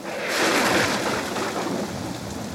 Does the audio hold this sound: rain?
yes